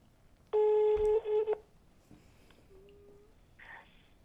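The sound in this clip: Telephone being dialed and then ringing out: a loud burst of keypad tones, followed by a faint, steady ringback tone.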